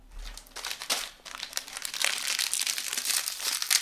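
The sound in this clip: Plastic biscuit packaging crinkles as the biscuits are unwrapped during a product comparison. Irregular crackling bursts come one after another and grow busier and louder toward the end, with no talking.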